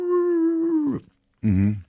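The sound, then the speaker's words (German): A human voice imitates Doberman dogs yelping, with two drawn-out, whining howls: a long, steady, high one that drops at the end, then after a short silence a shorter, lower, wavering cry. “dann laufen die Dobermänner vor und man glaubt, die zerfetzen dich gleich und dann hört man so”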